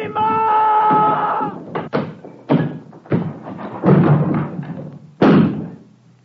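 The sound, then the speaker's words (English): A door being smashed in: a voice is heard at the start, then heavy thuds and crashing blows in irregular succession, each loud impact fading before the next. “Smash this door!”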